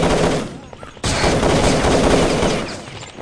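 Gunfire rattles through a Drug Lord 2 multiplayer game server in dense, rapid bursts of automatic shots. The firing briefly dips, then resumes sharply and loudly before tapering off.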